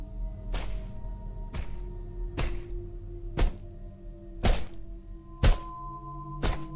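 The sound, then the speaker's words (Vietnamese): A brick smashing repeatedly against a head: seven heavy, sharp thuds spaced roughly a second apart, each loud, hard and abrupt, over a steady low tonal hum. “gã không ngừng liên tục đập thẳng cục gạch vào đầu mình, vang lên những tiếng chát chúa.”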